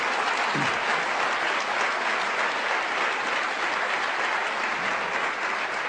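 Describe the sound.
Sustained audience applause at a political speech, thick and continuous clapping that stays even throughout without a break.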